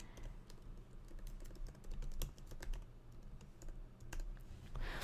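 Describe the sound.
Keys click on a computer keyboard as someone types a note so as not to forget it. Many faint, irregular taps come in quick bursts, with no voices.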